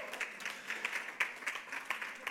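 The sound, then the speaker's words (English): Sparse, faint clapping from an audience at a fundraising event, with scattered, irregular claps from relatively few hands rather than a full, dense round of applause. “Your clapping today is terrible. I just want you to know. Terrible.”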